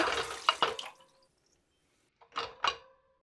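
Water splashes as dishes are rinsed at a kitchen sink, in two quick pairs of soft, splashy hits separated by a silent gap.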